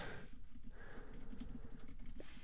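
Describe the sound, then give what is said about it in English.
Faint, soft keystrokes tap on a computer keyboard as text is typed in. The clicks come quickly and unevenly in a short burst. “I typed that in really wrong.”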